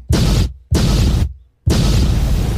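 Bomb explosion sound effect: three heavy, noisy blasts in quick succession, the first two roaring for about half a second each and the last one longer, running to the end, with no voices.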